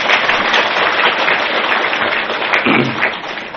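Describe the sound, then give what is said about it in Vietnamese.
An audience applauds at a Buddhist Dharma talk, a dense, steady clapping that holds at an even loudness for the whole stretch. “Cho một tràng phá tay hoan nghênh.”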